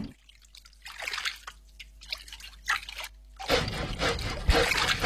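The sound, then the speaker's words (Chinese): Clean water splashes over charred pork belly skin that was blackened over a flame, in a few short trickling bursts before a steadier, louder gush of running water. “将上好的五花肉用火烧皮，皮逐渐被烤得焦黑，立刻用清水冲洗。”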